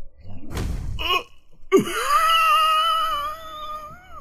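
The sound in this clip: A voice imitates the winded wheeze of someone punched in an unarmed strike during a tabletop role-playing combat. A breathy gasp and a short catch lead into a long, high, quavering squeal that is held to the end.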